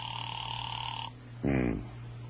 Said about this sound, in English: There was no answer. I let it ring for some time